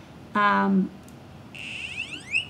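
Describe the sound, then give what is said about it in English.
A micro:bit V2's onboard buzzer plays electronic tones: first a short, steady, buzzy note, then after a brief pause a run of chirpy tones that sweep upward in pitch. “It's still got the LEDs, but now got a buzzer that can make tones.”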